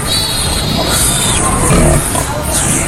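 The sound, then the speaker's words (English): Piglet oinking on a farm, with small grunts over a loud, steady background noise. “Look, there's an actual piglet.”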